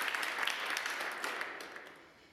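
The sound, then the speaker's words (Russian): A dressed-up audience applauds with dense, steady clapping. The applause is faint and gradually fades toward the end. “Саша демонстрирует подарок, нарядная публика аплодирует.”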